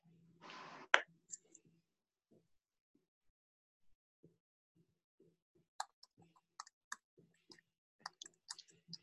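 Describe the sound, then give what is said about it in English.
Hunt-and-peck typing on a computer keyboard: sparse, irregular, faint keystroke clicks after a short burst of noise at the start. “Now you can hear that I type by hunting and pecking.”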